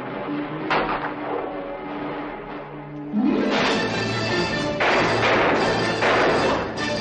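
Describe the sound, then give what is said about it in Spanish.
A heavy thud as a door is kicked open in a 1960 Western film scene: one sudden loud crash partway through, then a few further thumps over sustained tonal background sound. “Abre la puerta de una patada, entra, saca el revólver y dispara.”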